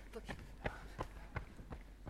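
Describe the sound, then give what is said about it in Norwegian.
Marathon runners' footsteps trotting past on a gentle downhill stretch of the course: a steady, even rhythm of soft footfalls, several strides in a row, fairly faint. “De neste maratonløperne kommer travende nedover.”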